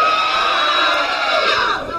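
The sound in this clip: A crowd at a concert screams and cheers together in a loud, sustained, high-pitched roar of many voices, easing slightly just before the end.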